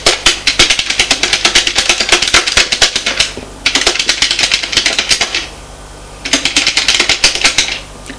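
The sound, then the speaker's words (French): A woman types rapidly on a computer keyboard in three loud bursts of dense, clattering key strikes, separated by two short pauses. “La femme tape sur son ordinateur.”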